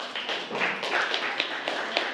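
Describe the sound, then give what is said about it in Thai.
Students in a classroom applaud a classmate, with many overlapping hand claps forming a brief, steady patter at an even level. “ปรบมือกับเพื่อนด้วยครับ”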